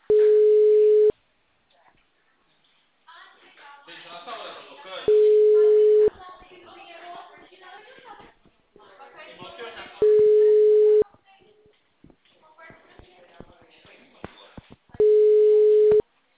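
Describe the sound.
Telephone call-progress tones sound while a call is being placed: four steady one-second beeps come at even intervals, with a voice talking in the gaps between them.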